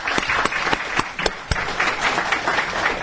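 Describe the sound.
Audience applause for a speaker being thanked before a panel discussion: a dense, steady wash of many hands clapping, with a few sharper individual claps standing out and no voices over it.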